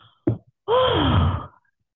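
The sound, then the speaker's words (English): Breathing in and out: a short, sharp inhale followed by a longer voiced exhale like a sigh, falling in pitch before it fades to silence. “so let me breathe in, breathe out.”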